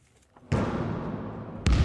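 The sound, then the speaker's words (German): A basketball bounces in a barracks sports hall. Two heavy thuds, a little over a second apart, each ring out into a long, booming decay. “Einige spielen noch schnell Basketball.”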